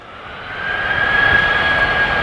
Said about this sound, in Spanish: Y la duna, que por dentro tiene aire y capas de diferente densidad, pues actúa como una caja de resonancia de una guitarra gigante, para que te imagines. O sea que la duna se convierte en un altavoz natural.